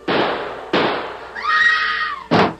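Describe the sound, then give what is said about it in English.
Gunshots go off inside an old house: three loud, sharp bangs, each trailing off in a long decay. Between the second and third, a wavering, high-pitched tonal cry rises and falls away. “Great Scott! Shooting in old Eli's house.”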